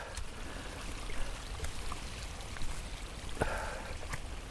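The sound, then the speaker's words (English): A creek flows down a slope with a steady rushing wash of water and scattered faint trickles and splashes. The sound is continuous and fairly quiet, with no voices. “This is like a creek coming down here.”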